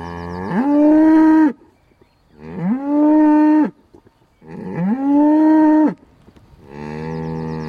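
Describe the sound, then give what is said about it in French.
A herd of Highland cattle gives deep, drawn-out moos: four loud calls separated by short pauses, the last one cut off. No one speaks. “C'est mon troupeau de Bœufs Highland. Alors on a choisi cette race-là parce que c'est des animaux pas lourds, bien adaptés sur les zones humides.”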